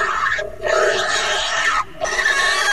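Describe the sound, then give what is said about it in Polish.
Loud, harsh squealing of a pig being slaughtered, used as a frightening warning sound for other animals. The shrill noise runs almost continuously, broken by two brief pauses. “Ostrzegawcze, mocno przerażające dźwięki zarzynanej świni.”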